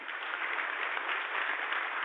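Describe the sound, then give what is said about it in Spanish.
Audience applause at a community gathering, a continuous crackle of many hands clapping, faint and muffled with a narrow, thin tone, holding steady throughout. “A esa comunidad un aplauso.”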